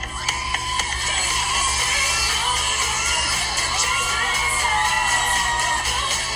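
A crowd cheers on a contestant as a competition round begins, with many girlfriends shouting and whooping in loud, continuous high-pitched cheering that holds steady throughout.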